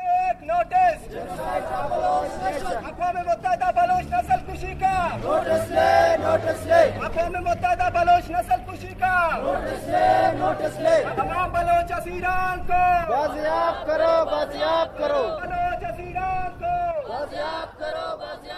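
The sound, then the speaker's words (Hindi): Rally crowd chanting slogans while marching through the streets of Quetta for missing persons, with loud, rhythmic shouted phrases repeating throughout and a mass of voices joining in. “Rally के शुरका ने शहर के मुख्तलिफ शाहराओं का गश्त किया और इस मौके पर अपने मुतालबात के हक में ये नारे लगाए।”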